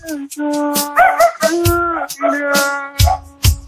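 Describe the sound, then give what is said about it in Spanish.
A dog howls along with singing, its long wavering tones rising and bending in steady, loud stretches, with a few short sharp bursts near the end. “Hay un perro que también está cantando.”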